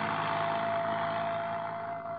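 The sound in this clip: A car engine drones steadily while the car is driven on a slippery road, a constant mid-pitched roar with a faint steady hum that dips slightly near the end.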